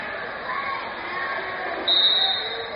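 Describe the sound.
A basketball being dribbled during a high school game, mixed into a steady wash of crowd noise that swells slightly near the end.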